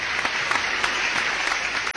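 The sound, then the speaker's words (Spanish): Applause sound effect played for prize winners of a stationery voucher draw: a dense, steady wash of many hands clapping that holds an even, loud level for two seconds and then cuts off abruptly. “Ahí está el aplauso.”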